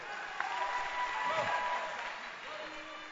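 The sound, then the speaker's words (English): Congregation clapping to welcome a singer at a church service, a dense, even patter of applause at moderate level with a voice over it. “Clap your hands for Sister Jackie.”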